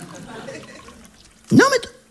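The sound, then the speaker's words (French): A drink is poured into a glass in one short gurgling burst that climbs in pitch, with quiet talk around it. “Allez, on va boire un petit verre. Oh, bah, si, quand même. Bon, bah, écoute, moi, je me sers.”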